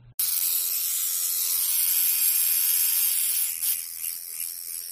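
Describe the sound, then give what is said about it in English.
An electric tattoo machine buzzes steadily as its oscillating unit rapidly drives needles in and out. The high, dense whir runs continuously at an even level throughout, with a low hum beneath it and no voices. “The most common method of tattooing these days is the electric tattoo machine.”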